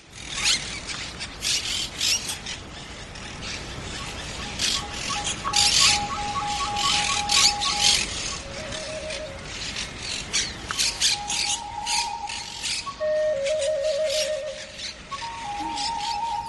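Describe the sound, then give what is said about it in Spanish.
Harsh, raucous squawking of monk parakeets in a city neighbourhood, with many overlapping calls forming an almost continuous, noisy chatter. “En mi barrio hay montones de cotorras argentinas, de esas verdiazules, que sí, son muy bonitas, pero plantean enormes problemas. Para empezar, una escandalera constante”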